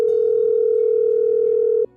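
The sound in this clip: A telephone line tone sounds during a call being placed: one steady, continuous mid-pitched tone that holds evenly, then cuts off abruptly just before the end.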